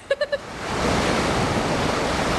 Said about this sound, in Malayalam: ദേ നീ നോക്കിയേ, ഒരു ഉഗ്രൻ തിര അടിച്ചു കയറി വരുന്നുണ്ട്.